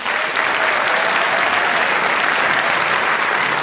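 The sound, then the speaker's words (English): Audience applause greets a debate team, a loud, dense and continuous patter of many hands clapping that holds at an even level throughout, with no voices standing out. “utterly spontaneous applause is working perfectly well”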